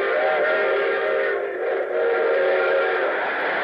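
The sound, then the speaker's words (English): A train whistle sounds in one long, loud, steady blast over continuous rushing rail noise as trains head for Grand Central Station near the Hudson River. The sound dips briefly midway and has no talk. “Drawn by the magnetic force of the fantastic metropolis, day and night, great trains rush toward the Hudson River”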